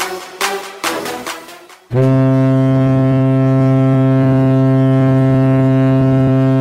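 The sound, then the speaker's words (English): A ship's horn sounds as a vessel comes in. A couple of seconds of rough, pulsing noise give way to an abrupt, loud, deep sustained blast with rich harmonics that holds steady to the end. “Ah, that is the sound of my ship coming in.”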